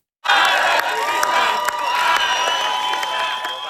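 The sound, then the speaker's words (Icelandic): A crowd cheers Hungarian prime minister Péter Magyar as he arrives at the Hungarian parliament. The loud roar bursts in abruptly after a brief silence and stays strong, with high shouts and whoops rising above steady clapping. “Magyar var vel fagnað þegar hann kom í ungverska þingi í morgun.”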